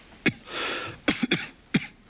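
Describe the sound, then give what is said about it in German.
Harsh coughs from a person who may have caught an infection: several sharp, short bursts spaced unevenly, with a softer breathy rasp between the first coughs. “Dein Husten.”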